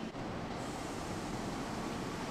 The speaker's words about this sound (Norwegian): Vi beveger oss nærmere den røde ristemaskinen. Der nå så kommer det poser som eh, ristes fra toppen og nedover maskin nå sortert ut, som nå skal videre til eh, optisk lesing.